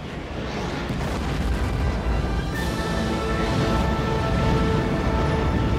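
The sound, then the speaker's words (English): Science-fiction plasma bursts fired by giant bugs from a planet's surface at ships in low orbit. A loud, dense, unbroken roar of rumbling blasts fills the whole stretch without pause. “has encountered heavy fire from the giant plasma bugs on the surface below. Firing bursts that light up the night sky, they can easily reach the ships in low orbit.”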